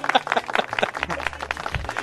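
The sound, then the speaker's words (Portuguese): An audience applauds as a stand-up comedian is called to the stage. Dense, brisk clapping runs throughout with voices mixed in. “Uma salva de palmas para Rogério Morgado.”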